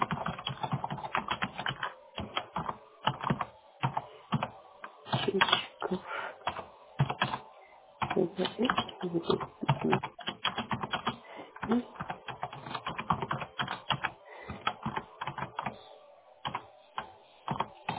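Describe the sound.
Typing on a computer keyboard: irregular bursts of clicking keystrokes with short pauses between runs, sometimes fast and dense, sometimes sparse.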